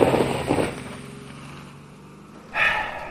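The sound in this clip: A limousine pulling away, a low engine drone between bursts of rushing noise at the start and again near the end.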